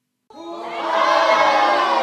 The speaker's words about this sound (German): Mit großem Jubel wird Irmengard auf der Fraueninsel empfangen.